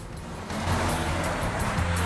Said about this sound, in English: Now the limo's cruising along the highway.